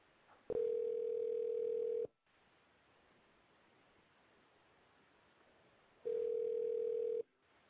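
A steady, low telephone dial tone while a call is being placed. It sounds in a long stretch, then breaks into quiet hiss, then returns as a shorter burst.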